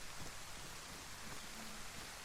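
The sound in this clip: Steady rain falls on someone caught outdoors in it, searching for shelter. A dense, unbroken hiss of drops runs with a soft low rumble underneath and no voices.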